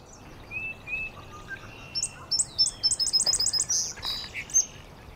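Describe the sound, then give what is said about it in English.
An indigo bunting sings from a maple tree: bright, high-pitched notes delivered in repeated phrases, with a quick run of rapid chirps in the middle, alone over a quiet background. “Up in the maple, right there. It's the bunting. That high-pitched sound, and every note is repeated. Every phrase is repeated.”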